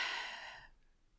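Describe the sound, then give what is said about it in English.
One deep exhaled breath, a soft, airy sigh that fades out within about a second, heard alone with no talk over it. “take a big deep breath like I've just done”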